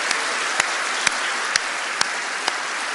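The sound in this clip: Audience applause for the band that led the morning music on stage, a steady wash of clapping with a few sharper, louder claps standing out at intervals.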